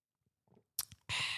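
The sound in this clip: Someone sips a small cup of coffee in the evening: a few faint quiet clicks and mouth sounds lead into a short wet slurp, then a louder, sustained hissing sip at the end.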